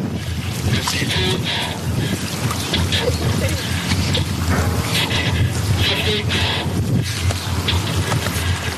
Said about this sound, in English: That's the sound of someone driving a working replica of the Turtle.